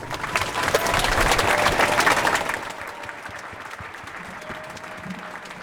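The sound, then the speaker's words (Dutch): Applause for the speakers at a rally on Dam Square. Dense clapping runs loud for about two and a half seconds, then drops to a fainter, thinner patter over a low crowd murmur. “Mag ik nog eenmaal een applaus voor alle sprekers?”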